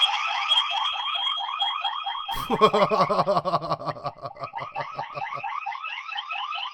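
An electronic car-type alarm going off, its rapidly repeating warbling tones running steadily throughout, with a louder stretch of pulsing, lower-pitched tones layered on in the middle before the steady warble continues alone.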